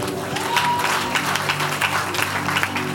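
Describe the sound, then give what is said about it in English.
Congregation applause during a church sermon: dense, steady clapping from many hands that fills the whole clip at an even level. “Clap your hands. He's a good man. Clap your hands.”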